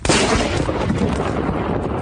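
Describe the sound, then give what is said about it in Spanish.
Thunderclap from a lightning strike close by on a snowy, freezing mountain summit in April: a sudden loud crack that swells into a sustained, roaring rumble filling the whole clip. “eso, que parece una explosión, es un rayo que estábamos a puntito de caerles encima”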